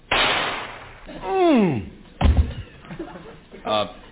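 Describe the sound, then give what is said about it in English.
A single sharp, dull crack of a .22 gun going off, set among voices talking before and after it. “It's only a .22, but just point it right at my chest and let me have it.”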